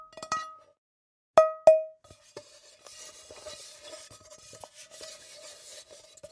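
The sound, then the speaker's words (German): A Tefal ceramic frying pan being handled: sharp ringing clinks, one early and two close together, then a run of softer rubbing and scraping knocks. “Wir hören jetzt eine Keramikpfanne der Firma Tefal.”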